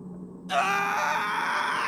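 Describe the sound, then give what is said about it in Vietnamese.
A man screams in terror at night beside a house: after a moment of quiet, a sudden loud, harsh cry bursts out and holds steady to the end. “Nhà sai hét lên một tiếng kinh hãi, rồi ngã ngồi xuống đất.”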